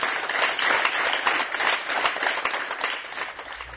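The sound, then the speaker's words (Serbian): Long, sincere applause at a farewell ceremony held in a studio, a continuous dense patter of many hands clapping at a moderate, somewhat muffled level throughout. “U ateljeu je danas na večni put ispraćen dugim i iskrenim aplauzom.”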